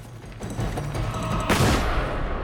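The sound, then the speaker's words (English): A single rifle shot in a military camp during a fight with armored soldiers cracks out midway as a sharp, bright burst over a constant dense roar of background noise. “Hiro freezes time as the bullet leaves the gun”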